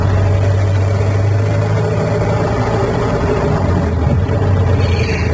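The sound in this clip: A car engine drones as the car moves off again after a breakdown. It is a loud, steady, low hum that holds level throughout, with no voices.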